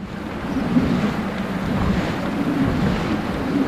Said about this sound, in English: With its four giant sails flailing in the wind, a traditional Dutch windmill is at work.